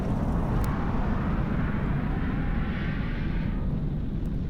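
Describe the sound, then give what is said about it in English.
Spacecraft thrusters fire at full power during liftoff, a loud, unbroken, rumbling roar dense with low rushing noise that holds steady throughout and thins slightly in its upper hiss near the end. “And we have liftoff. All systems green. Thrusters at 100%.”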